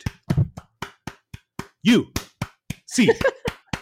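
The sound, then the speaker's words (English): Hands clap out the eight-clap UCLA cheer in a brisk, rhythmic series of sharp claps, with voices briefly chanting between some of them. “Do you guys know what the 8 clap is? No. It's a cheer for UCLA. It's really kind of catchy. You clap 8 times.”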